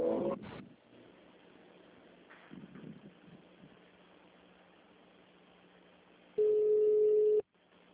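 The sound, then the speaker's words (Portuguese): Telephone busy signal after a dropped call: faint line noise and rustling, then one steady, loud, mid-pitched tone lasting about a second before it cuts off. “acho que caiu a ligação”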